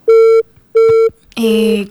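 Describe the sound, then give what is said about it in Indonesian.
A telephone disconnect tone sounds as a phone call drops because of a weak network, with two steady, equal beeps separated by a short gap. A voice then begins speaking. “Kodong putus lagi teleponnya karena jaringannya kurang mendukung.”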